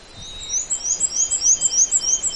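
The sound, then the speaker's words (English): A black-and-white warbler sings a thin, very high-pitched run of many rapid, squeaky two-note phrases, repeated evenly and continuously, alone without voices. “But that's it. That's the song of the black and white warbler.”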